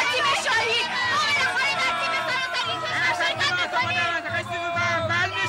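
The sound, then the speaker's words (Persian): A stadium crowd of spectators at a local football final in Shizuoka, with rival fans cheering on their teams, makes a dense babble of many overlapping voices that rises and falls, over low, regular thumping. “ورزشگاه پر از تماشاچی. طرفدارای تیم‌های رقیب به شدت دارن برای تیم مورد نظرشون تبلیغ میکنن.”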